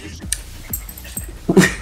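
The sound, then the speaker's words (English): Dogs breathing heavily with soft whimpers and a few faint jingles of their tags, heard as quiet, uneven puffs and small high-pitched sounds. “We got some doggos here, and they'll be providing us with some background noise of... Heavy breathing. Dog breathing.”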